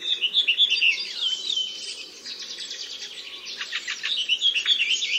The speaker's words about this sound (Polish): Pieśni poszczególnych samców mogą nieco różnić się od siebie, ale ten podział na wyraźne dwie bezpośrednio następujące po sobie części jest charakterystyczny dla wszystkich.